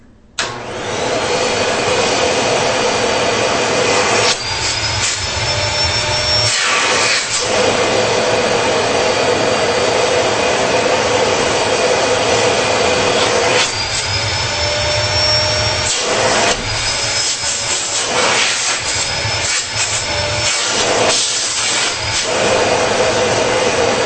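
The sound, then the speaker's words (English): A vacuum cleaner motor runs loudly and steadily throughout, a constant mid-pitched whine with a few brief dips and shifts in tone along the way. “Sounds a lot like the Miele and the Sibo vacuums. Very, very similar as far as noise level, pitch of the motor, that type of thing.”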